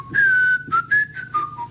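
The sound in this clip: Whistled rendition of the Internationale: a short melodic phrase of several clear notes, some held and some brief, whistled alone at a steady, moderate volume.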